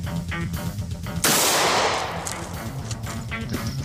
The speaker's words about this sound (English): This is a 38 Special Revolver. We'll be firing one shot out of here.